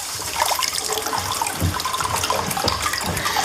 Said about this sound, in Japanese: かけ流しですって、こう源泉ね。